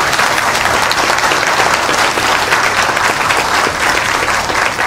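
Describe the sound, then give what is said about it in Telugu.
Audience applause during a spoken Telugu discourse, a loud, dense and continuous patter of many hands clapping that stays even throughout. “భర్తకి ఎందుకు చప్పట్లు కొట్టారు? ఏమర్థమైందని కొట్టారు?”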